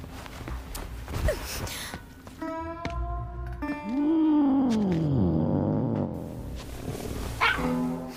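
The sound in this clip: A cat meows in one long, drawn-out call that arches up and then slides down in pitch, loud and clear against quieter rustling and shuffling.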